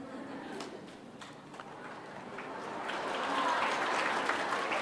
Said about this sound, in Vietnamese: Các bạn vỗ tay nhiều quá thầy rung rồi đó.